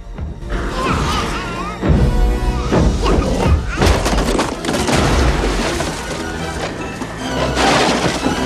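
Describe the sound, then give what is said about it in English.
A cannonball crashing through wooden floorboards onto a boiling pot in a cellar: loud, dense crashes, thuds and breaking impacts pile up over several seconds. “The ball drops through the floorboards onto a boiling pot in Grandma's cellar.”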